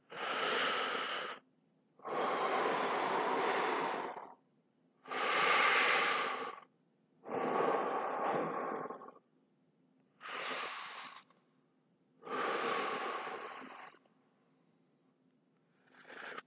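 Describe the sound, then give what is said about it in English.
Slow, heavy breathing alone: six long, airy breaths with even pauses between them, and a seventh beginning as it ends. “I just want to hear you breathe. Breathe with me.”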